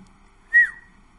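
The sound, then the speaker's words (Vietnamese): A man's loud whistle: one short, sharp, high note over a faint, quiet background. “Lão Pete huýt sáo thật to, cũng không nhiều lời vô nghĩa thêm nữa.”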